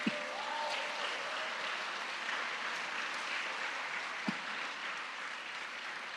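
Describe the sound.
A church audience at All Saints Church applauds to welcome newcomers and visitors at a carol service, producing quiet, steady clapping that runs evenly through the whole stretch with a couple of sharper claps standing out.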